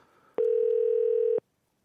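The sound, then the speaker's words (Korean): A telephone tone as a call is placed to a listener in their sixties: a single loud, steady, mid-pitched tone held for about a second, cutting off cleanly into silence. “전화를 한번 걸어볼까요? 예, 한번 걸어보겠습니다.”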